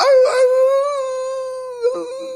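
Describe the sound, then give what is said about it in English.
A puppy howls in a pet cage: one long, steady, high-pitched howl that lasts almost the whole time. It opens with a short whimpering yelp, and another brief whine breaks in near the end. “we've got him in a cage, like, it sounds horrible, like a cage, like a pet cage, like a puppy cage”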